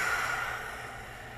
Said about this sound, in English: Take a deep breath in. Open your mouth, let it go.